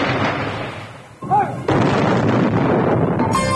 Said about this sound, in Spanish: esta dio la orden de disparar los cañones para el cine